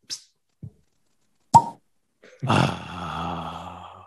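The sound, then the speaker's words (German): Cork popping as a bottle is opened: faint small knocks, then a single sharp, loud pop, followed by a longer, noisier rushing sound. “darf ich mal ganz kurz um Ruhe bitten, dass ich mal diese Flasche öffne?”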